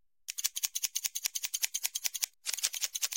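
Scissors trimming just the tips of hair at a barber's: many quick, crisp, high snips in a fast, steady rhythm, with a brief pause before a final burst of snipping.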